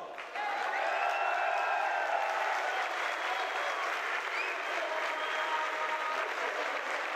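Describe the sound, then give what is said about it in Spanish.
Crowd applause at a heavy metal event, a dense, even wash of clapping that starts abruptly and holds loud and steady to the end, with crowd noise blended in. “¡otro gran aplauso!”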